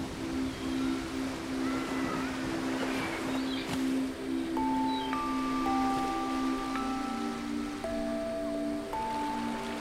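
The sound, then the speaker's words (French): Ocean waves wash in a steady, even roar of surf that fills the whole clip, with soft sustained musical tones held over the water. “Prêtez attention aux cris des oiseaux marins qui planent non loin de vous, ainsi qu'au bruit de l'océan.”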